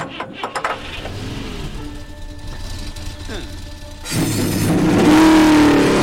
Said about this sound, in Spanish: Caballeros, arranquen sus motores.